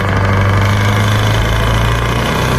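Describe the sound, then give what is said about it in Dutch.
An engine runs with a deep, steady rumble and a strong low drone. It stays loud and even throughout, with rough mechanical vibration and no voices. “Even gas geven.”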